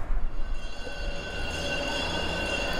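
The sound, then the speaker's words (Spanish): A train at Alicante railway station: a steady low rumble topped by sustained, high-pitched wheel squeal, a little louder at first and then even. “ahora estoy en la estación de Alicante, ya de vuelta a Madrid.”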